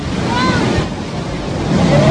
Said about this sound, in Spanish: no ser afectados por las aguas del mar que inundaron parte del muelle, como ve en estas imágenes.